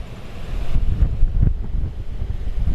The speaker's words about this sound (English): just hear the wind. Yeah, it's quiet up here.